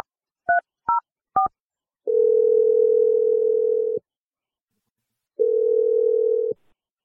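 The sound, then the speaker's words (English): Touch-tone dialing as a phone call is placed: three short beeps, then two long, steady ringback tones separated by a pause, with no voices. “I'm going to dial Holly. Let's see what she has to say.”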